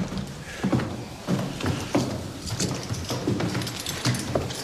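Footsteps climb a staircase to a second floor: a steady series of dull thuds at a walking pace, moderately loud and evenly spaced, with no talking.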